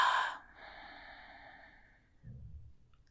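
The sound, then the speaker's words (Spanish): Slow, deep breathing through the nose: an airy inhale, then a soft low exhale, with a faint steady tone in the background. “Vamos a comenzar tomando tres respiraciones largas, lentas y profundas por la nariz, inflando el estómago. Inhala. Exhala.”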